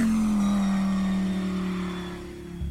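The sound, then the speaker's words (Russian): A car engine accelerates away in a steady, buzzing drone whose pitch sinks slightly as the sound gradually fades toward the end. “Далила дала по газам”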